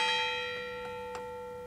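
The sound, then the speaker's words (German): Church bells of the castle church on the Schlossberg in Altenburg ring on a quiet summer day, a sustained humming tone that slowly fades, with a few faint strikes rising over the lingering resonance. “Auf dem Schlossberg in Altenburg ist es still, sommerschattig, aber mit den Glocken der Schlosskirche schon musikalisch.”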